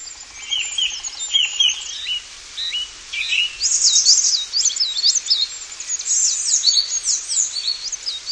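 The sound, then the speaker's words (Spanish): Thrushes singing after rain: bright, high, fluting phrases that overlap almost without pause, rising and falling in quick twists over a quiet background. “además del agua traída por la lluvia, escuchamos a unos zorzales que dan entrada a una variedad de animales”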